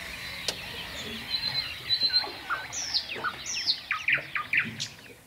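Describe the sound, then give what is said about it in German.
Nightingale singing at night in a quiet natural setting: a run of sharp chirps and whistled notes that grows busier and louder toward the end, over a faint hiss with no other sounds. “Da ist die Nachtigall.”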